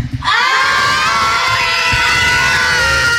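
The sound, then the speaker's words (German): Roughly 200 schoolchildren shout and cheer together in a studio, a loud, dense roar of high voices that bursts in after a brief pause and holds steady for about three seconds. “wenn hier gefühlt einfach mal 200 Kinder im Studio stehen, dann klingt das wie?”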